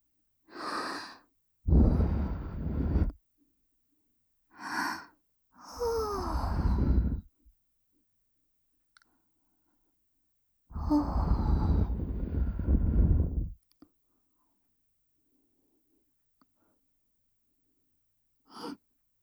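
Gentle blowing into the ear, in ASMR style, comes as a few soft, breathy puffs of air of uneven length, separated by quiet pauses, with one long, steady exhale near the middle.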